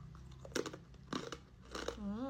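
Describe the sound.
Crunchy basreng sticks with lime-leaf seasoning being chewed, their texture not hard: three bursts of crisp crunching in an uneven rhythm, quiet overall, followed by a brief wavering hum of a voice at the end.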